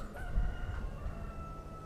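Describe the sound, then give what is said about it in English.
A rooster crows at dawn on Monhegan Island, Maine, on the first day of lobster season: a single faint, drawn-out, wavering tonal call over a low background rumble of trucks. “And there's our little local rooster letting us know that it's time to get up and start heading down to the wharf.”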